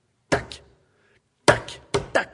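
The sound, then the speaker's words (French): A knife clacks against a plate as someone fails to cut hard butter fresh from the fridge, giving a few sharp, dry taps: one early strike, a pause, then a quicker cluster. “C'est quelqu'un qui essaie de couper du beurre dur et qui rate, parce qu'il est trop dur, et tac, et donc le couteau tombe sur l'assiette.”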